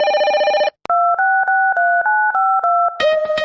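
Touch-tone dialing of a seven-digit Minsk telephone number: a steady multi-tone beep, then seven short, evenly spaced dual-tone beeps in quick succession, ending in another sustained tone. Loud and clear, with no voices.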